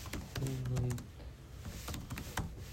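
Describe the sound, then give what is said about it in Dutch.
Someone types a message into Microsoft Teams on a computer keyboard, with rapid, irregular keystroke clicks continuing throughout. “Ik typ het heel even in je Teams hoor, daar hoef je niks mee te doen, maar dan weet ik gewoon dat ik dat moet doen.”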